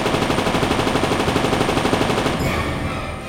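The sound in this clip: A heavy machine gun fires one long, rapid burst of evenly spaced loud shots. It then stops abruptly, leaving a fading tail.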